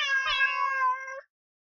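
A cat meows once in a long, loud, tonal call that holds steady, then cuts off abruptly, followed by silence.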